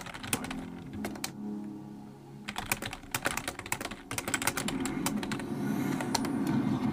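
Typing on a computer keyboard: many quick, irregular clicks in uneven bursts separated by short pauses. A steady low hum runs underneath in the later part.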